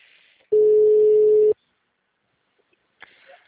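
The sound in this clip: A telephone busy tone sounds on a call that keeps dropping: one steady, mid-pitched electronic beep holds for about a second, then silence, followed by a faint brief rustle.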